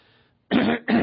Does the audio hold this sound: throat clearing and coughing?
yes